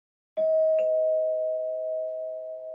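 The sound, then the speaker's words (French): A small bell rings as someone enters a café: two quick bright strikes, then one clear high note that rings on steadily and slowly fades. “L'écho de la clochette résonna dans l'air tandis qu'elle pénétrait dans l'établissement.”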